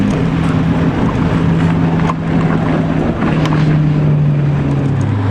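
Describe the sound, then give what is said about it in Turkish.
Steady engine roar of the JCB Hydromax, a hydrogen-powered car with two hydrogen engines making 1600 horsepower, speeding on the Bonneville salt flats in Utah; a loud, continuous drone with wind rush and a low tone that drops slightly near the end. “JCB'nin hidrojenle çalışan Hydromax aracı Bonneville tuz düzlüklerinde saatte 653 kilometre 909 metre hıza ulaştı.”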